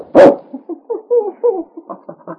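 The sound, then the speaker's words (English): A dog named King gives one sharp, loud bark, then a run of softer, shorter yips and whines that continue unevenly to the end. “Oh, King, you wonderful dog.”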